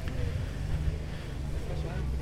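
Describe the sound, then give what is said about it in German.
A generator runs at a protest where police are removing activists locked inside a concrete pyramid. It gives a steady, low, droning rumble throughout, with a little fluttering noise above it. “Die Polizei versucht nun schon, im Hintergrund hört ihr den Generator, seit Stunden die 4 eingeschlossenen Aktivisten der bäuerlichen Notgemeinschaft aus der Betonpyramide zu ziehen.”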